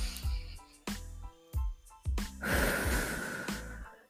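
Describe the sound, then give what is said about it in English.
A person breathes out during a guided breathing exercise: a few soft breath sounds, then a longer, hissing exhale, all faint and with no talk. “Hold it in for like 5 seconds, honey. Or like 3. Or like 2 if you know you're unfit. Breathe out. Again.”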